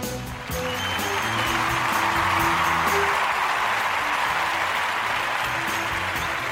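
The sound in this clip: Applause from a studio audience of hundreds, a sustained and even roar of clapping that starts early and holds steady, with a few musical tones in its first half.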